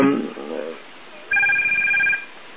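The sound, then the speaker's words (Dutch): A telephone rings with one steady, bright electronic ring burst lasting under a second, right after a brief voice. “ja, nou gaan ze nog even bellen. Ik neem hem even op”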